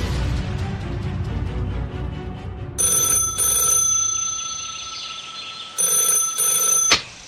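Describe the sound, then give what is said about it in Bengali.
A telephone rings in the morning: two bursts of a bright, high electronic double ring, each made of two short trills separated by a pause, over faint background sound. “পরের দিন সকালে অমলদা phone করলেন”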